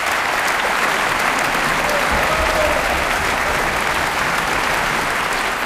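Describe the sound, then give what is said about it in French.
Audience applause fills the hall after the opening concert of the Aix-en-Provence Easter Festival, a dense, loud, steady wash of clapping that holds evenly from start to finish. “Et vous entendez le bonheur du public du Festival de Pâques d'Aix-en-Provence.”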